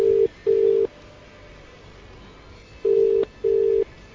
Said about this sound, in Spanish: Qué mal suena el teléfono, ¿eh?